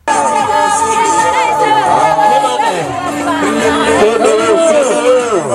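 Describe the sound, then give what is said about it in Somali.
Women ululating in a crowd welcoming a parliamentary candidate in Garissa, loud continuous wavering high-pitched trills over cheering and chatter from many voices. “Mid ka mid a dumarka u taagan kursiga haweenka ee Gaarisa, Kiman Axmed Ugaas, ayay hadda u mashxaradayaan dad u badan dumar.”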